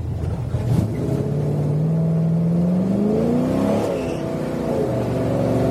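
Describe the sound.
A Chevrolet Caravelle's engine revs on a race track while the driver warms the tires. It holds a loud, steady drone whose pitch climbs, then drops back, with no voices.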